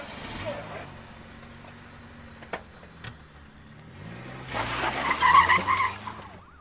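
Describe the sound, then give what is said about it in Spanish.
A Falcon car accelerating hard with its tires skidding. A rough engine roar runs throughout, and a louder rising tire squeal builds over the last seconds. “Bufarra acelera su Falcon al límite para llegar puntual a cumplir la ley.”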